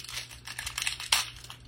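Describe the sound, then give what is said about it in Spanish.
Adhesive tape is handled to lift glitter off, giving a continuous run of crinkling and rustling with one sharper tearing burst partway through. The sound is fairly loud and has no talk over it. “Aquí hay una cinta. Es que yo me quito el glister con cinta.”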